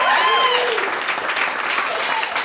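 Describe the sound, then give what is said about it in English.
Audience applause at a comedy show, a steady wash of clapping hands that holds at an even, fairly loud level throughout, with scattered cheers briefly rising over it. “I think that deserves a round of applause.”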